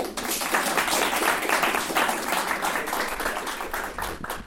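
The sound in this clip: Audience applause at a college event welcoming a speaker to the floor, a dense, even wash of many hands clapping that holds steady throughout.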